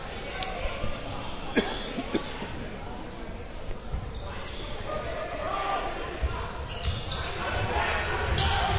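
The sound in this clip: A basketball being dribbled on court during a high school game, with a few sharp bounces standing out over steady, noisy crowd ambience in the gym.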